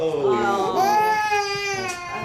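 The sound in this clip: An infant cries in a sustained, high, wavering wail, with strained, sobbing breaks and pitch bending up and down across the short stretch.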